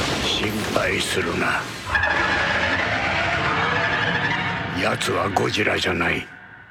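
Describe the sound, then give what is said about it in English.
A shrill, sustained screech of Rodan, the giant flying monster, sounds in a movie trailer and is held for a couple of seconds between stretches of people talking. “But that sound effect, that sounds to me like Rodan. That's the big flying one.”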